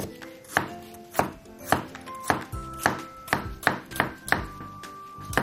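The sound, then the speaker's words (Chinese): A knife slices bamboo shoots on a cutting board, cutting them diagonally into pieces. Many crisp, evenly spaced chops follow one another in a steady rhythm, with no talking. “接下来把这个笋呢切成笋片，先把它对切一下，斜着切，切片，”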